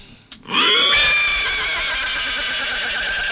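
A horse lets out a loud whinny that breaks in sharply near the start, then holds a long, sustained cry until the end.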